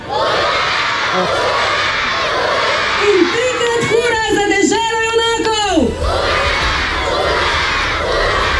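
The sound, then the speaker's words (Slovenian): A crowd of schoolchildren at a primary school in Leskovec pri Krškem shouts three cheers, a loud, continuous mass of high young voices, with one drawn-out voice rising clearly above the crowd partway through before the shouting carries on. “kamorkoli pride ljudje, takole. Trikrat hura za Cereta!”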